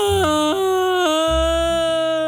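A young child cries loudly in long, sustained, high-pitched wails at home after their mother returns; the pitch drops and rises between cries.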